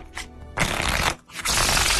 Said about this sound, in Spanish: Ahí te va, Aries. Déjame sacar mi baraja.